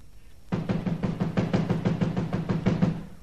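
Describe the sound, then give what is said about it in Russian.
Rapid, steady knocking on a locked door: after a brief silence a long run of many evenly spaced, firm knocks starts abruptly and continues to the end, with no voices. “Петька, стучи! Заперто, Василий Иванович? Стучи!”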